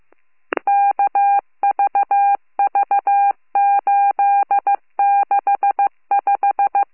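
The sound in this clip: Telephone keypad tones as a number is dialed to call back a caller after a domestic disturbance report: a brief click, then many short beeps in six rapid clusters separated by short pauses, with no voices.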